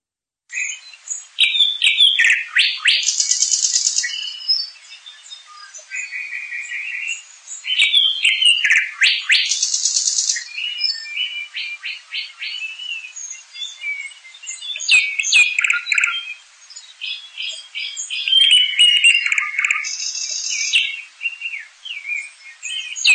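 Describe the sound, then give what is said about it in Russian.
Nightingales singing: bright, high-pitched song in rapid, varied phrases of trills, whistles and chirps that repeat in bursts across the whole stretch, with no talking. “Соловьи.”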